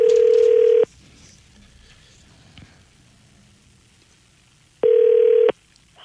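Telephone ringback tone on an outgoing call being placed: two long, steady tone bursts separated by several seconds of near silence with a faint hum.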